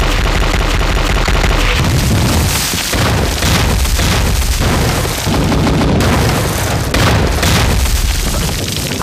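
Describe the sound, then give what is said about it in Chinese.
An artillery bombardment pounds away, with many heavy shell explosions rolling into one another in a loud, continuous barrage of booms and blasts that lasts the whole stretch. “命令，炮击，开始。”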